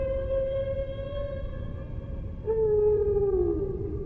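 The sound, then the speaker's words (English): Humpback whale song on a coral reef north of the Dominican Republic: two long, tonal moaning notes rich in harmonics. The second note enters a little louder and higher and slowly drifts downward in pitch. “Every winter, these reefs north of the Dominican Republic are filled with the song of humpback whales.”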